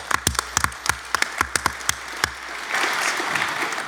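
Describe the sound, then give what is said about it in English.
Audience applause greets a hardware team at a tech presentation. About a dozen separate, sharp claps ring out first, then the sound thickens into fuller, continuous applause. “I think a bunch of the Parallax guys are in the audience. Are you not? Raise your hands if you're here, guys. So give those guys a hand.”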